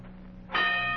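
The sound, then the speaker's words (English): A bell struck once to start a boxing fight, giving a single clear metallic ding that rings on with a sustained tone over a low steady hum, fairly faint overall. “There's the bell. His first fight is on.”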